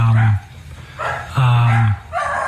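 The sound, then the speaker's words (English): Dog barking heard under people talking: a few short barks mixed in with the conversation. “Is that your dogs? Nope.”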